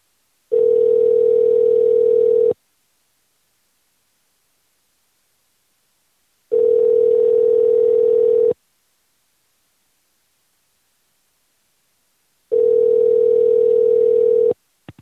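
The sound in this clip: Telephone ringback tone while calling a number back: three steady, low, buzzing tones of about two seconds each, separated by long silences, followed by a brief click at the end.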